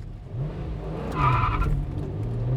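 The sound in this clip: A car engine roars as the vehicle speeds off, and a tire screech rises out of the steady rumble midway through, then fades back into the continuing engine noise.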